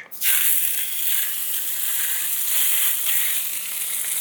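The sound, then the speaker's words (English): Steady, bright sizzling of fish frying in a hot oiled pan. It starts abruptly and holds a loud, even hiss to the end, with no voices. “Kind of tilting my pan a little bit so it coats the pan nicely. And then I am going to add the fish.”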